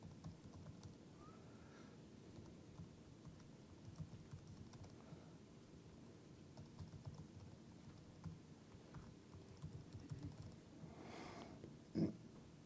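Faint typing on a computer keyboard as a password is entered: a quiet, irregular patter of soft key clicks, with a slightly louder tap near the end.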